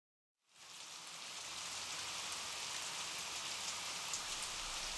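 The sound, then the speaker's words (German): Rain drumming on city streets, a steady dense hiss of countless drops that starts after a brief silence and stays even and unbroken throughout. “Die Stadt empfängt ihn wolkenverhangen, Regen trommelt auf die Straßen.”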